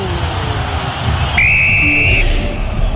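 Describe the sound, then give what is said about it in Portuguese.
A referee blows the whistle to end the first half of a football match: one long, steady, high-pitched blast lasting under a second over a constant wash of background noise. “apita pela última vez o árbitro.”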